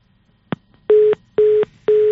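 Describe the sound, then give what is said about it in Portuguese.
A telephone busy signal sounds after a dropped call: one sharp click, then three short, steady, identical beeps at an even pace. “Caiu a linha.”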